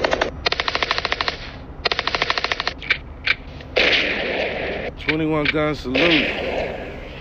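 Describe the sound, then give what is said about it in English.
Rapid gunfire in a hip hop track: a quick, evenly spaced stream of shots lasting under three seconds, then a few single pops, before a voice speaks over a steady backing. “That's my little 38. 21 gun salute.”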